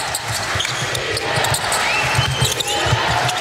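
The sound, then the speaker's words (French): Basketball dribbling during an international game between Turkey and Belgium: many low, thudding bounces in an irregular rhythm beneath a steady, loud crowd roar. “Allez, petite erreur au dribble, bonne défense belge.”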